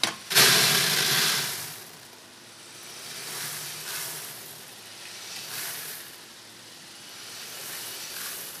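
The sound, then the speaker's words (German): Freshly roasted coffee beans drop from the roaster into a round cooling sieve with a sudden start, then become a steady rushing, hissing noise that swells and eases in slow, regular waves as the beans keep moving. “Die Bohnen fallen in einen runden Sieb.”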